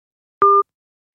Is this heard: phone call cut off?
yes